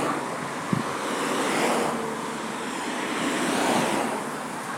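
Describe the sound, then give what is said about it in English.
Traffic noise on a busy road in the rain: a steady, dense wash of hiss and low rumble that swells gently and ebbs, with no voices and no clear individual vehicles. “It's a busy road, and it's raining, everyone. Sorry about the traffic noise.”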